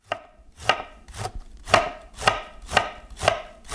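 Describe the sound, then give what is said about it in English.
Knife chopping slices of cabbage into pea-sized pieces: a steady run of crisp, evenly spaced chops, roughly two per second, with no voices. “So now my mom's got a few slices of cabbage, and she's gonna chop it up into about pea size to go with chunks of shrimp and chunks of cooked eggs.”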